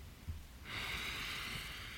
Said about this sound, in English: try and just take a deep breath in. So we'll do one together.